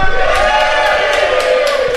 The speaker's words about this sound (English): And we have a live studio audience.